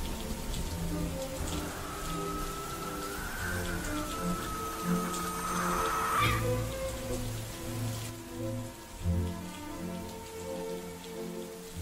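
Heavy rain falling in a garden, a dense, steady patter and hiss that carries on without a break, with faint tonal sounds drifting over it.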